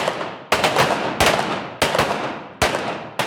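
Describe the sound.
Five sharp pistol shots crack out at a shooting range during duel-discipline practice, spaced under a second apart, each a loud abrupt bang that decays quickly.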